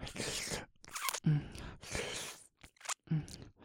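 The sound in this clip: Close-up ASMR mouth sounds of licking an ear: soft, wet smacks and slurps come in several short bursts with brief quiet pauses between them. The sounds are very faint and intimate.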